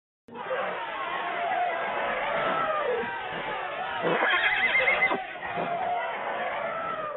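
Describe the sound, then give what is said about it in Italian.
Horses neigh over a steady, dense rumble of trampling hooves, with a shrill whinny rising out of the noisy commotion midway. “S'udirono nitriti di cavalli, uno scalpitare precipitato, un calpestio e un barrito formidabile che coperse tutti quei diversi rumori.”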